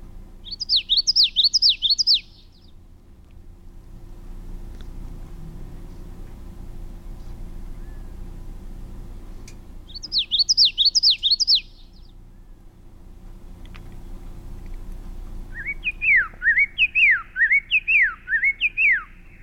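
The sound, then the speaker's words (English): A common yellowthroat song plays three times over a faint steady hum. Two bouts are quick runs of repeated wavering whistled phrases. The last is slowed down, lower pitched and stretched out, so each sliding note is drawn out. “Here's the song of the common yellow throat, and we'll hear it at regular speed, and then we'll hear it slow down, and then slow down even more.”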